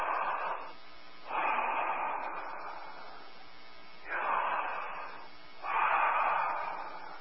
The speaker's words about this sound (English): Breathe in.